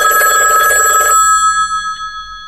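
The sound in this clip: A telephone bell rings loudly in one bright burst of about a second, then stops and its metallic tones linger and fade. No one speaks.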